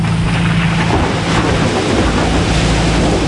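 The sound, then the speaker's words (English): A sudden jungle rain shower falls around a boat as a dense, steady hiss, with a low engine-like hum underneath throughout. “My God, everything's getting soaked. These jungle rains, they are sudden, huh?”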